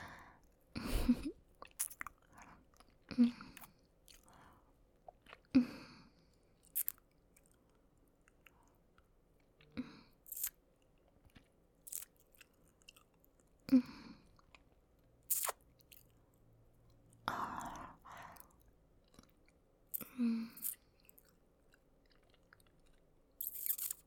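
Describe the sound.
Wet mouth sounds of tasting and licking in an intimate roleplay: scattered soft smacks and squelchy, crunchy clicks spaced a few seconds apart, mostly quiet with a few sharper peaks and no speech.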